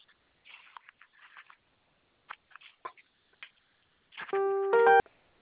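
A telephone keypad tone sounds from pressing the zero key, one short, loud electronic beep lasting under a second, preceded by faint, scattered rustling and taps.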